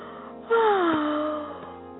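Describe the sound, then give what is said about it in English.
A long human yawn with a big stretch: a voiced moan starts abruptly, then slides slowly down in pitch and fades away over about a second and a half. “So with a great big stretch and a great long, long, long yawn,”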